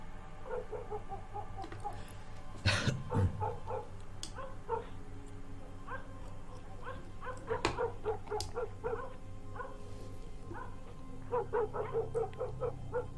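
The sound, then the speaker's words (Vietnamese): Dogs barking far away at night: many short, high yips, whimpers and barks in irregular clusters, with one louder burst near the start. “Thi thoảng xa xa văng vẳng tiếng chó cắn ma nhấm nha nhấm nhặng, nghe đến sốt cả ruột.”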